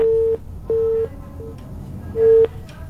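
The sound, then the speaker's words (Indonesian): Telephone line tone while redialing an official after a dropped call: three steady mid-pitched beeps separated by pauses, the last a little louder, over faint background noise. “Baik, kita coba hubungi kembali Pak Kadisdik Kabupaten Cirebon, Bapak Haji Ronianto SPDMM.”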